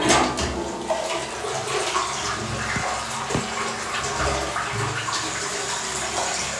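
Toilet flushing with a loud, steady rush of gushing water that runs without a break from start to finish, with no talk over it.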